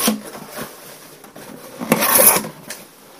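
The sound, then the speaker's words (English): A cardboard box is opened after its tape has been removed, giving soft scraping, rubbing and rustling of cardboard flaps, with a louder, rougher scrape toward the end and no talk. “So in front of me, I have this box. I ripped off the tape already just to kind of save time here. We're going to open the box.”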